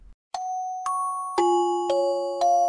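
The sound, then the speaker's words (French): A wristwatch alarm sounds at night with five chime-like notes at different pitches. Each note rings on and overlaps the last, forming a short, moderately loud melody with no voices. “Même la nuit, elle sonne ta montre?”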